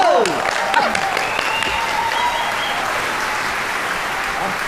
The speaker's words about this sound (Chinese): 咱这样吧，咱们就以热烈的掌声，有请高玉清老师表演这段武松打虎。